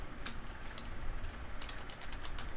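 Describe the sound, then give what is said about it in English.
Someone types on a computer keyboard to look something up. Many soft key clicks tap out in a quick, uneven rhythm, faint against a low background hiss. “there was one thing I meant to type in to look up, because I wanted to see Florida man news for Pasco County for this week. So, wait a minute.”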